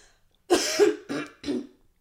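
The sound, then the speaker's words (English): A moist cough comes in three bursts: a longer, raspy first burst, then two shorter ones in quick succession, loud against near silence. “Would you consider that cough dry or moist? Oh, it was a fucking moist one.”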